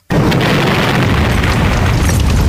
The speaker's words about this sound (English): Was that your hand grenade that went off? Was that what it was?